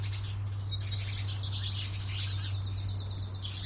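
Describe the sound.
Birds calling in a laurel bush in a garden during mating season: busy, high-pitched chirping and twittering runs on without a break, fairly faint, over a low steady hum.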